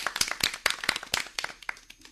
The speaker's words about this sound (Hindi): या तो फिर जोरदार तालियां, और ये जवाब बिल्कुल सही है।